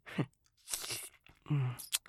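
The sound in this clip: Crunchy chewing of something firm and gristly, in a few wet, crackling bursts separated by brief pauses, with a low murmuring vocal sound mixed in.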